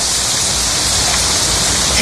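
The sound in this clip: Steady rain sounds as a dense, continuous hiss that stays loud and even for about two seconds, with no clear individual drops.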